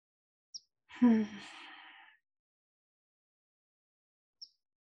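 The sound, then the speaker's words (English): One deep breath taken during a mindfulness meditation, heard as a soft breathy sigh lasting about a second that trails off gently, with two faint brief clicks before and after and no talking. “let's inhale deeply and exhale. And we'll do this three times, just at the start of the mindfulness meditation.”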